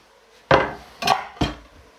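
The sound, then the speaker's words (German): Leek is tipped into a frying pan of lightly browned vegetables for a cabbage pudding, giving three dull, clattering knocks spaced through a short quiet stretch, with no talk. “So, jetzt gebe ich den Lauch dazu. Ein bisschen Farbe hat das Ganze schon genommen.”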